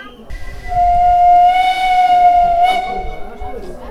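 A train whistle gives one long, steady tone of about two seconds as the train sets off at about 10 km/h, over a low, continuous rumble that fades as the whistle ends.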